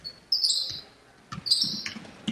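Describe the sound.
A basketball is dribbled during a game, with a few low, hollow bounces against the court, interleaved with sharp, high sneaker squeaks in two bursts.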